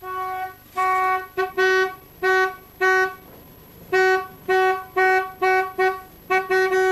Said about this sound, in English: vehicle moves, he'll try to pinpoint the horn's position and work out in which direction they're traveling